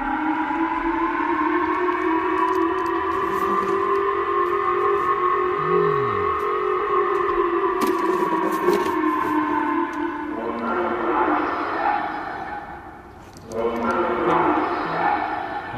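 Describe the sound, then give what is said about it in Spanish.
Air raid alert sirens wail across Japan during an overnight warning over a North Korean missile launch. The loud, sustained tones hold steady with slight pitch drift, and rougher noise joins after the midpoint. “Y este es el sonido de las alertas antiaéreas que han sonado en la pasada madrugada en Japón.”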